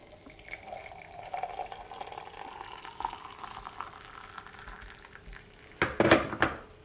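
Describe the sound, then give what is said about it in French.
Water being added to large sugar cubes, faint and irregular at first, then a short, louder gush of splashing water near the end. “Et après, j'ajoute de l'eau.”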